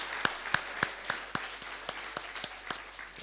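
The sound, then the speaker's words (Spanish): Audience applause welcomes guests at a community gathering, heard as faint, steady rhythmic clapping with evenly spaced claps at a brisk pace. “nosotros queremos darle la bienvenida y darles este aplauso, entonces, por estar aquí entre nosotros.”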